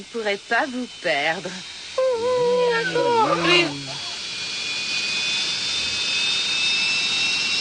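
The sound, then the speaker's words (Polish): An airplane engine's loud, hissing jet-like roar builds up, with thin high whines drifting slowly upward. Voices talk over the first few seconds before the roar continues steadily on its own. “Przecież to złom. Ale mam szczęście. Wolałbym któryś z tamtych dużych samolotów.”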